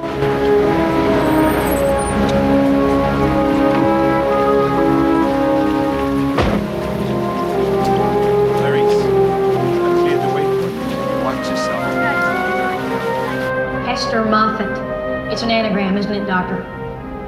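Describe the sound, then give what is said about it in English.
Steady rain on a car driving through a downpour, a continuous dense hiss and patter that stays loud for the whole stretch, with sustained tonal sounds layered over it. “She drives in the rain to the asylum.”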